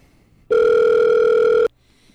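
A telephone rings as an incoming call comes through on a caller line: a single loud, steady electronic ring tone lasting just over a second, set between quiet stretches.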